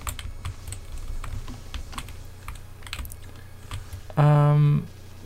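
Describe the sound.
Computer keyboard typing as strategy notes are written during a video game, a run of many quick, light clicks over a low steady hum, interrupted near the end by a brief, loud buzzing tone.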